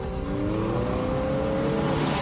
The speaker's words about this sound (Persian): اوه پسر، این ماشین مثل ساعت کار میکنه.